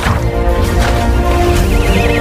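A pony neighs loudly in a long, wavering whinny that fills the whole moment, with no voices present.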